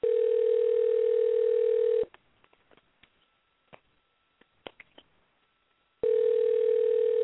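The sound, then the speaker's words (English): A telephone rings back while an outgoing call is placed: a steady, loud ringback tone lasts about two seconds, then a long stretch of near silence with faint clicks, then the tone starts again. “On your line right here, I'm making a call right here. Hopefully the caller will answer.”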